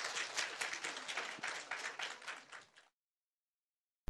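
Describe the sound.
Applause from a gathering thanking a master during a ceremony: dense, steady clapping from many hands for about three seconds, then it stops abruptly into silence.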